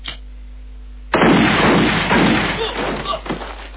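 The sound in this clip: A single loud gunshot fired at a television to switch it on at a gathering of gun owners: a sharp, sudden blast followed by a long, rough, noisy tail that slowly fades.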